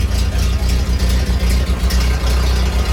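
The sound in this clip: An old car engine, a garage find, runs at a steady idle: a loud, continuous low rumble with a quick rhythmic throb and no voices over it.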